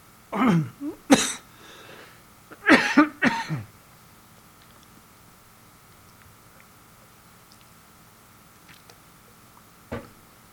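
Coughing after a cough drop went down before it finished melting: two close clusters of several harsh, loud coughs, then a long quiet stretch and one more brief cough near the end.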